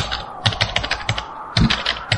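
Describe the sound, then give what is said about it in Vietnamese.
Fast typing on a computer keyboard: many quick, crisp keystrokes in uneven bursts, with a brief pause near the middle before the clatter resumes. “Cô gắng trấn tĩnh, gõ nhanh bàn phím.”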